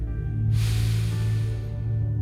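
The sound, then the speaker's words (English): A deep breath drawn in during a guided breathing exercise, a long airy rush of inhaled air starting after a brief pause and holding over a steady low drone. “Take a deep breath in”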